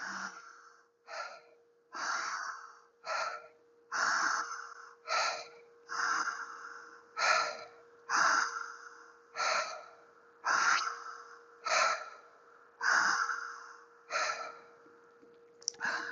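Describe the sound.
Deep breaths in a breathing exercise, many long airy inhales and exhales in a steady, even rhythm, with a faint constant hum underneath.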